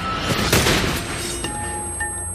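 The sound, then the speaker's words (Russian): A bazooka-type weapon loaded with a solid slug fires in a narrow street: a loud, broad blast, then a sharp metallic hit and a thin, lingering ring. “Отдача, звон гильзы, проулок заволокло дымом и пылью.”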